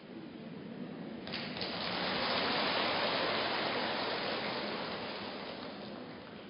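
Steady rain at a temple makes a dense, even hiss that swells a little mid-clip and then eases slightly, with no voices.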